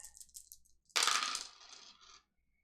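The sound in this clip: Six-sided dice clatter onto a table during a tabletop role-playing game, first a few light, quick rattles and then a loud tumbling clatter that rolls on for about a second before settling into quiet.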